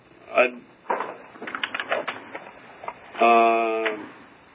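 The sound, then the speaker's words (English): Computer keyboard typing comes through loudly on a call, with a run of quick clacking keystrokes between bursts of speech. “someone is typing on their keyboard and it's coming through pretty loud”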